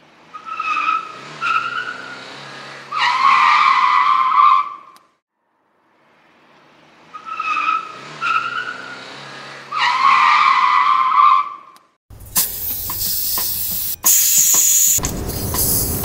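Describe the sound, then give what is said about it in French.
Air hisses out of large 4x4 tyres, about 75 cm across, as they are deflated, in two loud, sustained bursts with a whistling tone and a short pause between them, followed by a rougher, noisier stretch. “Moi, je viens dégonfler les pneus de 4x4, très polluants, très gros, très imposants.”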